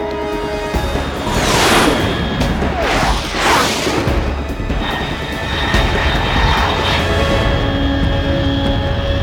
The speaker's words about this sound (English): Unidentified aircraft detected, altitude 30,000 feet.